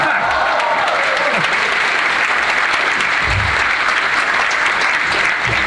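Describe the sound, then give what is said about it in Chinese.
Audience applause at a stage performance, a dense and loud wash of clapping that continues steadily for almost six seconds without a break. “可以鼓掌了。”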